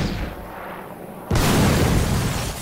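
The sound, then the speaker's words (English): An M1 rocket launcher fires as a film sound effect: after a quieter hiss, a sudden loud blast erupts and continues as a sustained, heavy roar until the end. “Ooh, an M1 rocket launcher. You don't want to do that. I sure do.”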